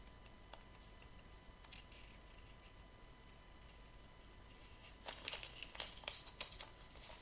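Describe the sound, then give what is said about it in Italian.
A paper pizza receipt being handled and crinkled, at first only faint scattered ticks, then a short burst of sharper, louder crinkling toward the end. “Questo è lo scontrino di prima. È lo scontrino della pizza.”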